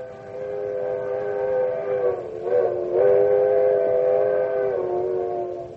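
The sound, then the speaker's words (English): An old-fashioned coal-burning steam locomotive whistle sounds alone as one long, sustained, mournful chord of several tones, wavering briefly in pitch midway through before holding steady and then dipping slightly near its end. “That's a sound you may never have heard before. One of the most mournful, lonesome, and yet friendly sounds in the whole world. It's a locomotive whistle. The old-fashioned kind that was part of a coal-burning steam engine.”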